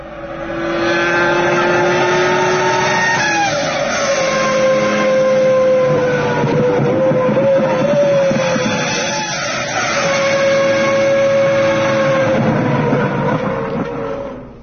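A car engine downshifting through gears, loud and continuous, its droning tone stepping in pitch several times as the revs change, with no voices.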